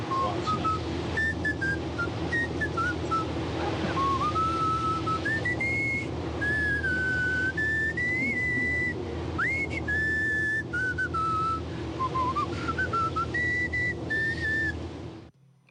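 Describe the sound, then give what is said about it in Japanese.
Someone whistles a wandering tune through their teeth rather than their lips. The reedy tone slides up and down in pitch for a long stretch over a steady low hum, fairly faint throughout. “口笛じゃなくて、 そう、 歯笛”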